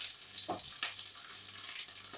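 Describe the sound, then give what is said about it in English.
Meatballs brown in a frying pan with a faint, steady sizzling hiss. A few brief clatters break through as the meatballs are turned with a spoon. “But I'm just going to use a spoon, turn around, brown them on one side, turn around, try and get a nice golden brown surface all the way around the ball.”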